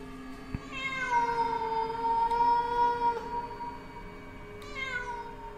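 A cat yowling eerily at night: one long, drawn-out wavering cry holds a steady pitch for several seconds, followed by a shorter yowl near the end, fairly faint throughout.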